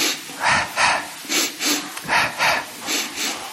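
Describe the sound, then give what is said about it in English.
Short, sharp breaths from a breathing exercise of two inhales followed by two exhales, about eight quick airy bursts grouped in pairs at a steady rhythm, fairly loud with no talk. “Or do it in a different way, two inhales and two exhales in a row.”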